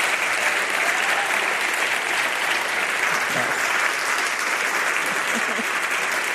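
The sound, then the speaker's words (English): A standing ovation for Congresswoman Jackie Speier, with the audience applauding in a steady, even stream of clapping that holds at the same level for several seconds without talk. “For the, our radio audience, we have a standing ovation here.”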